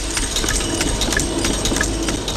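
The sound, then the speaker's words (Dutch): Coin minting presses strike lettering and portraits onto silver 38 mm coins, each press rated at 90 pieces a minute. Many quick, regular metallic knocks ride over a loud, steady mechanical roar. “In deze muntpersen, die elk een capaciteit hebben van 90 stuks per minuut, worden dan tekst en beeldenaars op de munt geslagen.”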